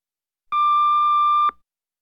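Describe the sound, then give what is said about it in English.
An answering machine beep: a single steady electronic tone lasting about one second, starting abruptly and cutting off cleanly, alone in silence. “Please leave your message after the beep and I'll get back to you.”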